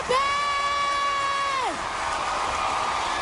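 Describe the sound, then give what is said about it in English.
A loud crowd cheers at the American Music Awards: a long, high whoop holds steady, then slides downward and gives way to a broad, continuous roar of crowd noise. “Damn, this crowd is loud.”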